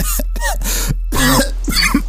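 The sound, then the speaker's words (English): A woman coughs up a lot of fluid in a run of harsh, wet coughs that come in uneven bursts, some with a rough voiced edge, with short gaps of quiet between them. “She begins coughing up a lot of fluid and discreetly wipes it from her lips.”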